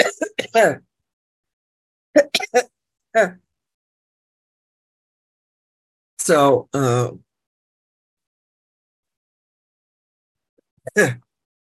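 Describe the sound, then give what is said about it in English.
Throat clearing from someone with a tickle in the throat: a few short, rough vocal bursts separated by silence, with a final faint one near the end. “Got a little bit of a tickle in my throat.”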